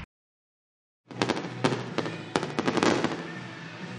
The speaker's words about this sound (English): Tell the fireworks are flying here and wrapping up here at Medler Field, Lebronto Park